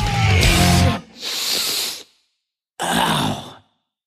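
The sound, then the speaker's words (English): Nasal inhalations close out a music track: three breathy, hissing intakes separated by short gaps, the first overlapping the last of the music and the final one following a brief silence. “And it ends with some nasal inhalation.”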